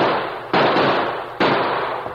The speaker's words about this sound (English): That shot came from the arroyo over there.